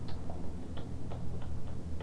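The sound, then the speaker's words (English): A clock ticking in a steady, even rhythm of sharp, light clicks over a low background hum. “There's the clock.”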